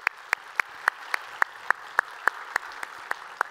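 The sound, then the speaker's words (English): An audience applauds to welcome family joining from Stone Canyon and online. A steady, evenly timed run of sharp claps stands out above softer background clapping. “So if you would, take a moment, welcome them into our time of study here today.”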